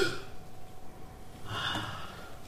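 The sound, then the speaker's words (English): A deep gasping breath taken by a preacher during a Sunday morning church service: a breathy rush of air swells up in the middle and then fades, with no words spoken. “Sunday morning service is about coming up for breath.”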